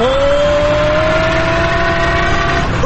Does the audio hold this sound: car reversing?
yes